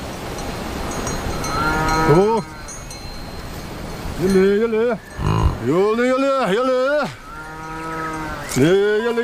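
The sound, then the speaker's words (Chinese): A herd of cattle lowing on high-altitude grazing land: a series of long, wavering moos of varying pitch, some overlapping or coming in quick succession, over a low, steady background. “洛让达旺和家人需要跟随牛群，确保他们能吃到最肥美的牧草”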